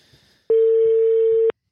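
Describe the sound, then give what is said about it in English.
A telephone call ringing out to a young man in hotel quarantine: a single steady electronic tone, clear and mid-pitched, lasting about one second after a faint, quiet lead-in. “Let's call a young man who's in hotel quarantine just doing his best. Let's do that right now. Hopefully he picks up. Here we go.”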